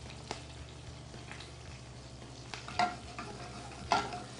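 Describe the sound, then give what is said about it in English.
Food fries and browns in a pan, salted to help it brown. A faint, steady sizzle runs throughout, broken by a few brief scraping stirs that stand out slightly louder toward the end. “You don't want it to burn, but you do want to see little brown bits in the bottom. And then to that, I'm just going to sprinkle a little salt, and it'll actually help it brown too.”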